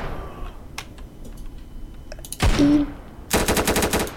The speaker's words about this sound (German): Und dann den reloaden. Und dann schießen ihn tot.